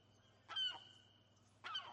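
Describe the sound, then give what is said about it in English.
A seagull gives two short, harsh calls about a second apart over a low, steady hum. “Seagull.”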